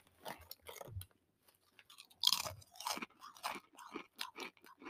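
Crunchy cheddar chia veggie chips for kids being chewed: many crisp, close crunches come in irregular bursts, fairly quiet, with a brief pause between about one and two seconds.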